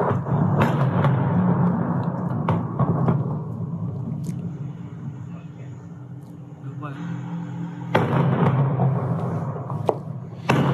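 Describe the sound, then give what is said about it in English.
Tanks fire on armored vehicles during a tank battle in Mariupol. A few heavy, deep booms and thuds punch through a constant low, rumbling roar. “We are told these are Ukrainian tanks firing on Russian armored vehicles.”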